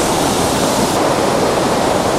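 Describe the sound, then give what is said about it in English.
A fast-flowing, shallow river rushing over rocks, making a loud, steady, unbroken roar of water throughout. “Okay, let's move without falling in the river, because that would be disastrous, and without getting too wet.”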